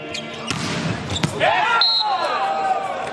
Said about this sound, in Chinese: 王斌来发球